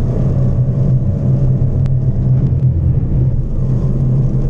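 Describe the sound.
A new-model Subaru BRZ sports car corners on a race circuit, its engine a loud, steady, low-pitched drone that holds without a break and has no voices over it.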